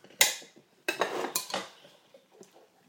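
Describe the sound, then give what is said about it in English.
A spoon clinks and scrapes as a cheesy filling is spooned onto unbuttered bread: one sharp clink, then a few clattering scrapes close together, fairly quiet and with no talk. “I'm just going to spoon this on.”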